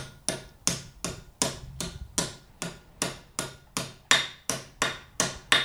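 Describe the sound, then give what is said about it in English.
A hammer strikes a copper vessel, working around its outside to curve its shape. Many sharp, evenly spaced metallic blows ring out in a steady rhythm, each with a short decaying ring. “so you go all the way around the outside of the vessel, and slowly but surely you change the angle to make it this curved shape. So when you're hitting it to move the shape so it sounds.”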